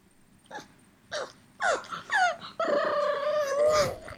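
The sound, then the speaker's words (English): Pug dog noises: a few short whimpering, grunting yelps, then a longer drawn-out, wavering whine with a hoarse, almost alien quality. Moderately loud, with no talk. “Here's some pug noises”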